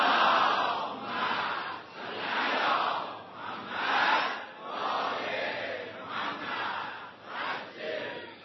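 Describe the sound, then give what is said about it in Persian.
A crowd chants salawat, the blessing on the Prophet, loudly and in unison at a Qur'an gathering. The massed voices rise and fall in several broad swells. “یکی از اون صلوات بلندتون خط بفرمایید.”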